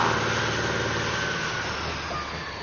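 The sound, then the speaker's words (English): A vehicle engine runs steadily as the vehicle is put in gear and driven off, a continuous broad rumble with a faint high whine that holds an even level throughout, with no talk. “slid the wag into gear, drove it onto the blacktop, and slipped in at the rear of the convoy”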